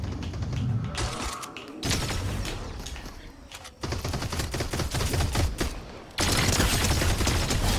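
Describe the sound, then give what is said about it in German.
Gunfire from a Fortnite match crackles as dense, rapid bursts of sharp shots, loud and nearly continuous with only brief lulls between volleys. “Da wird geschossen.”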